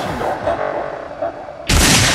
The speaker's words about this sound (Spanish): Explosiones épicas. Hay un boom de un...